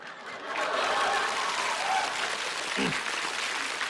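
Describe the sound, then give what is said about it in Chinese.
Audience applause at a live comedy stage performance, a dense, steady wash of clapping that swells in after a brief quieter start and holds at an even, fairly loud level. “别鼓掌，别鼓掌！”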